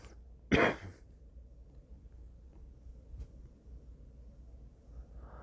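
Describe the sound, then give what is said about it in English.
A single short, rough cough or throat clear from a man, sharp and loud against an otherwise quiet, faintly hissing background. “Oh, I'm gonna cough again.”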